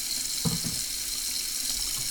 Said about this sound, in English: So now we rinse the other cup off.